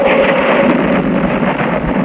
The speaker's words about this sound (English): And a howling wind. A clap of thunder.